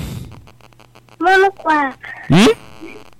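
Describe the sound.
A human voice imitates a duck's quack with three loud, nasal, buzzy quacks in quick succession. The last is sharper and sweeps upward in pitch, over a faint background hum.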